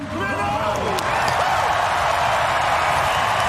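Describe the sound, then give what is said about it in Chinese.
Stadium crowd applauding and cheering at an athletics race, a broad roar that swells after the first second and then holds loud and continuous, with a voice briefly heard at the start. “现场也是爆发出了雷鸣般的掌声和欢呼声。”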